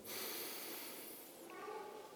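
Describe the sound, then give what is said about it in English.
One deep inhalation by a person during a guided prayer meditation, a soft, breathy hiss lasting about a second, faint and alone. “Breathe in.”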